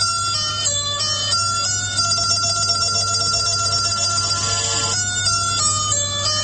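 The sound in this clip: A telephone rings with an electronic ringtone. A bright, repeating melodic pattern of high tones plays continuously at even loudness over a steady low hum.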